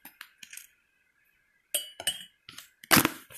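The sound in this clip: Spoon clinking against dishes while getting ready to add milk: a few faint, sharp metallic clinks and taps, the last one louder.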